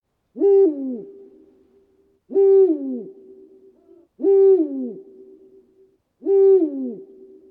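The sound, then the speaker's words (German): A Eurasian eagle-owl hoots at night in four evenly spaced calls. Each is a deep, loud hoot that slides down in pitch and trails off, with silence between calls. “Der Uhu. Eigentlich hat er sich ja schon selbst verraten, denn er ruft immer wieder seinen eigenen Namen. Uhu, Uhu.”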